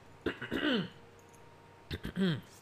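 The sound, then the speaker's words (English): Phlegm being cleared from a throat in two separate bouts, each a cluster of short raspy bursts ending in a gruff voiced rasp that falls in pitch, with a quiet pause between them. “Hold on, I gotta get all this freaking phlegm out of my mouth.”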